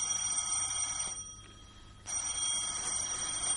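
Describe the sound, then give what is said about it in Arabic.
A telephone rings late at night in a home, a bright, steady bell ring that breaks off for about a second and then resumes, with no voices. “حيث بدأت أحداث هذه الواقعة برنين التليفون في وقت متأخر من الليل بمنزل الدكتورة مكارم الصفتي.”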